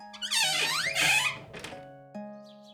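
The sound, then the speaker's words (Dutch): A heavy castle gate swings open with a loud, drawn-out creaking squeal and a dull knock, over steady sustained background tones. “Toen de koning de poort, na lang zoeken, eindelijk had gevonden, deed hij open.”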